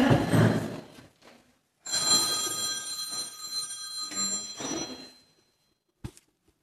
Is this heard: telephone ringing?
yes